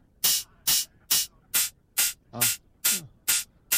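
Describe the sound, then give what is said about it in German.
A high-pass filtered hi-hat cymbal plays a regular series of short, bright hissing hits. Each hit is crisp and airy, separated by clean silence in an even rhythm. “Wenn ich eine Hi-Hat rausmachen will, muss ich natürlich einen Filter auf, also High-Pass.”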